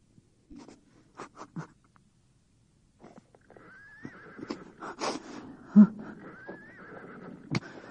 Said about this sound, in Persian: خدای من چی میبینم؟ یه اسب طلایی، زین و یراقی داره.